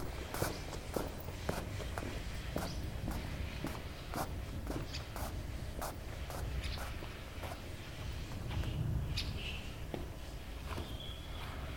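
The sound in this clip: Footsteps walk at a steady, even pace, with many regular soft thuds continuing through the whole recording over a constant low background noise.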